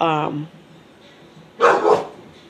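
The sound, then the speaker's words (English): A pet dog barks in the background of a home recording: a quick, loud double bark follows a short stretch of a voice, over a low steady hiss. “my background noise is getting crazy. My dog is acting up, and I don't want to just, you know, have a dog just keep barking in the background”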